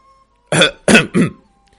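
A light cough with a throaty, throat-clearing quality: three short, close bursts, the first two strongest and the last a little softer, heard alone against near silence.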